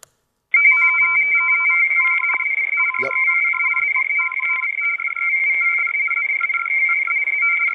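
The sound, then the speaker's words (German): A Morse code radio message sent from a submarine: rapid on-off beeps form dots and dashes at two pitches, laid over a steady high tone that runs unbroken throughout. “was ihr hier hört, ist klassischer Morsecode, so hörte sich das damals an, wenn einem U-Boot oder von einem U-Boot irgendeine Meldung rausgeschickt worden ist.”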